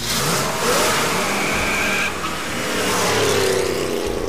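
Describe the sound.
A car engine revs hard while being driven through its gears, a loud, continuous, rasping roar. The sound dips briefly around the middle before surging back up to full intensity.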